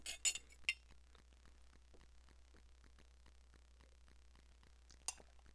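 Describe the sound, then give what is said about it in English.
Coffee cup clinking faintly: a few light chinks near the start and one more near the end, with long quiet stretches over a soft, low hum between them. “Excuse me, I need some some coffee.”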